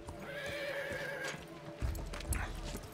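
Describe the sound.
A horse neighs with a long, wavering whinny while its hooves clip-clop in an uneven rhythm, all fairly quiet.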